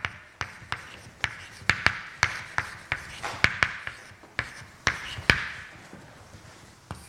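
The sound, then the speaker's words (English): Chalk knocking and scraping on a board as limits are written out during a mathematics lecture: many sharp taps at a fairly regular pace, with no talk over them. “So now we just, we're gonna uh, write down some limits.”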